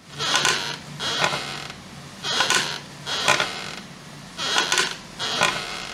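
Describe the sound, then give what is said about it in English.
A wooden rocking chair creaks in a slow, regular rhythm, with six drawn-out creaks grouped roughly in pairs and short pauses between. The creaks are fairly loud and there is no talk. “The sound you just heard was a recording of a rocking chair.”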